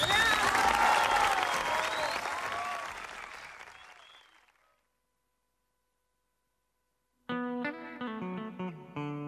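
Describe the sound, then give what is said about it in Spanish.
Audience applause at a live event, loud and dense clapping that fades steadily to silence over about five seconds. After a pause, tonal music begins. “Solamente un aplauso les pido y quedaré satisfecho”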